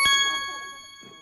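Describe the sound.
A bright chime marks a correct answer in a quiz game, struck once at the start and then ringing out and fading away.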